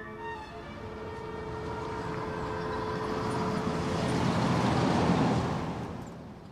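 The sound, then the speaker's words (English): A car speeds across a bridge and drives past, its broad engine and road roar swelling steadily to a peak before easing off. A steady tonal drone sits underneath early on. “Joe's car speeds across a bridge, then drives past his house”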